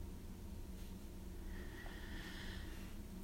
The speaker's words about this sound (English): Let's take a deep breath. Inhale. Inhaling all the positive thoughts.